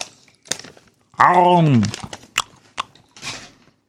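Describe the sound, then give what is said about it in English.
Snacking on Raisinets chocolate-covered raisins: a few sharp, crisp chewing crunches spaced apart, with a brief voiced sound in the middle, otherwise quiet. “Today's episode is brought to you by Raisinets. They look like rabbit turds, and they taste like them, too. But I'm a little hungry, so just a little snack break here.”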